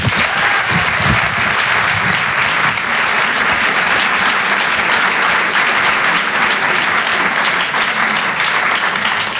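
Loud, sustained applause from a comedy club audience welcoming a stand-up comedian to the stage. The dense clapping holds steady for the whole stretch without dropping off.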